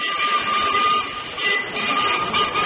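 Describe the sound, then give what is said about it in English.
A twin-headed freight locomotive pulls out of Garston sidings in Liverpool, a steady, loud, droning rumble with a sustained whining tone running throughout and no voices. “Yeah, the great sound of a twin-headed freight locomotive pulling out of Garston sidings. Tim, get that record off. Everyone is sick of listening to engine noises.”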